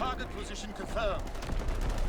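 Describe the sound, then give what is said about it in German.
Artillery fire in a video game: a rough series of rapid, overlapping bursts and rumbling impacts that keep on through the whole short stretch. “Recon? Gleich mal Artillerie hinterher.”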